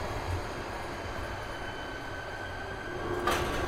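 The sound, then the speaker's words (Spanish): A subway car stops at a platform with a steady, low mechanical rumble throughout and a brief hiss near the end. “El vagón se detuvo en el andén”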